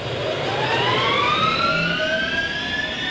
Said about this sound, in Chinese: 又一架运输机开始发动了。